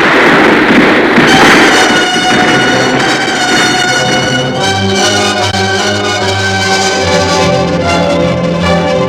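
Battle gunfire crackles loudly and densely without pause, then thickens into a continuous roar laced with sustained ringing tones in the second half.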